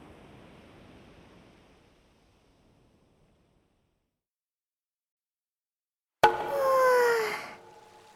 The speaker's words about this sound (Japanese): ほらこれ、貸し切り露天風呂があるみたいですよ。ここ行きましょう。